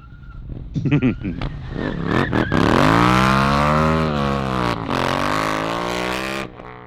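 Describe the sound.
A Dyna motorcycle engine barks through a few short throttle blips, then revs up into a long, loud, rising roar that holds steady before cutting off abruptly near the end.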